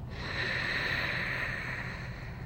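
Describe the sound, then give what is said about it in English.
A slow nasal inhalation during a guided breathing exercise, heard as a steady, soft airy rush that holds at an even level for a couple of seconds with no voices. “I'm gonna breathe in”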